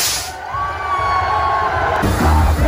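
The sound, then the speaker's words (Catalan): A large festival crowd roaring and cheering at the opening of the peñas' festivities in Lleida: a loud, dense, continuous wash of voices and whoops that swells toward the end. “després que ahir es va donar el tret de sortida amb el Cargol a Sollona Cendra. Sí, és com el xupinazo, però al lleidatà, i sona així.”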